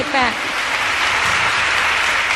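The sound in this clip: Concert audience applausing Carole King on stage, a loud, dense, rain-like patter of clapping that stays steady throughout, with a brief voice at the very start.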